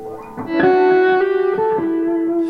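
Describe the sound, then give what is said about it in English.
Electric guitar, a 1952 Telecaster played through an amplifier with distortion, rings out a few sustained notes in turn, each bright and rich in overtones, with no talk over the playing. “So can we hear the amp distortion, or is that is that crazy loud or something?”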